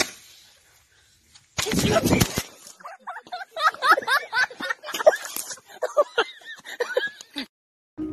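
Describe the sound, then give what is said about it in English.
A Roman candle firework fires in one loud, rushing burst after near silence, followed by people laughing and shouting. “He shot his ass with that Roman candle.”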